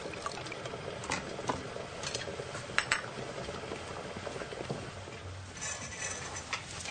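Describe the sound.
Kitchen sounds in a narrow kitchen, where a hand juicer squeezes oranges and a glass is taken from a shelf. Light clinks and scrapes sit over a steady soft background, with a few sharper glassy knocks standing out.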